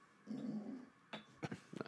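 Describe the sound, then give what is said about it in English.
A dog growls low and steadily for under a second, then a few short, sharp thumps follow as it stomps its feet; quiet overall. “Look at this fucking dog. He wants the podcast. He keeps coming over here looking at me. He's like, oh, when's my turn to speak, motherfucker? Look, he's stomping his feet, growling.”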